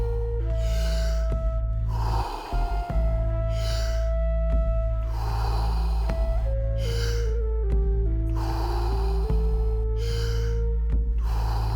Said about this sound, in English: fully in and letting go. Just keep on going. No pause between inhalation and exhalation.